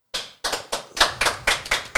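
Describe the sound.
Audience handclaps after a sung song, eight sharp, separate claps in a slow, even rhythm about a quarter second apart, heard alone without talk.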